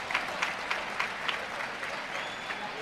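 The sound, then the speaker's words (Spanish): A bullfight crowd applauds in the stands, the faint clapping carrying a steady rhythmic pulse of louder claps at regular intervals, like a crowd on its feet clapping in time. “La gente que se pone en pie, ¿eh? Aplaudiendo”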